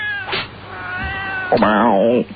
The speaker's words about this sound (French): Si t'as des chats, tu les ranges.